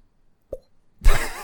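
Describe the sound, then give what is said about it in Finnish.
A single mild cheek pop made with the mouth gives a short, hollow, low-pitched plop, followed moments later by a louder, noisier sustained sound. “Aika mieto poksahdus. Mieto poksahdus poskipoksuna.”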